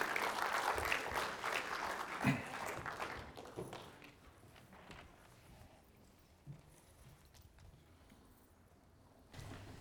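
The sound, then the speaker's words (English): An audience claps in welcome as a reader comes up to read a scripture passage in the morning. Dense, lively applause runs for about four seconds, then fades into quieter room noise with a few soft thuds. “would you put your hands together and welcome Becky Jacobson as she comes to read our text for us this morning”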